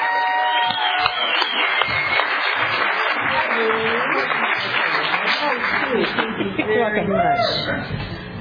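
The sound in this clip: Audience applause welcoming the main speaker at a Visalia or Tulare County meeting: dense, sustained clapping through the whole stretch, with some voices mixed in.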